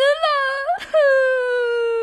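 A performer in a comic Journey to the West audio drama gives an exaggerated crying wail for a character. It is one long, high, quavering moan, broken by a brief breathy catch and then resumed.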